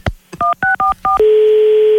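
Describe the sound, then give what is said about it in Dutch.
Telephone keypad dialing: a handset click, then four short two-note beeps in quick succession, followed by a long, steady tone that holds to the end. “Ik hang nu op en ik bel de politie op.”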